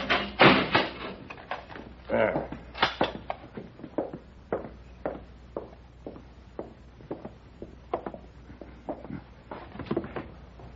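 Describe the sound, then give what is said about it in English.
A cell door being locked in a jail: heavy clunks and rattling metallic clicks, loudest at the start, then a long run of lighter knocks and taps at an uneven pace. “I'll have to lock you in.”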